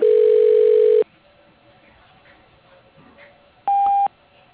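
Telephone dialing sounds: a steady tone of about one second, a stretch of low background hiss, then a single short, higher keypad beep.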